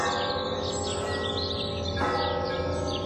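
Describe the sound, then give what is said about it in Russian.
Church bells ring out over a town on Easter morning, a dense, continuous peal of overlapping resonant tones that stays steady and loud throughout, with no talk. “В городе было 42 церкви и 6 монастырей. Гулкий радостный звон с утра до вечера стоял над городом, не умолкая, волнуя весенний воздух.”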